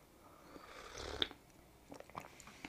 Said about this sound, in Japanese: ちょっとコーヒーを飲みます。入れたの忘れてました。